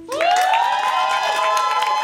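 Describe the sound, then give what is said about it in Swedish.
An audience cheers for the second live act, a solo finalist, in a music competition final. A loud, high shout rises at the start, and the crowd's cheering and shouting continue with clapping beneath. “Det är dags för live-akt nummer 2. Finalist 2, New Girl, står redo. Ge en varm applåd för henne.”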